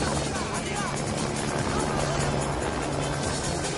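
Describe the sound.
Helicopter flying away, its rotor and engine noise forming a dense, steady roar that stays constant through the whole stretch.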